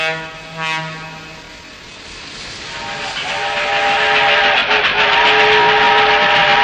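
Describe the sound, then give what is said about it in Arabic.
A fast train: a whistle-like tone at the start, then a rushing, rattling roar that grows steadily louder and stays loud to the end. “يلا نركب هذا القطار السريع”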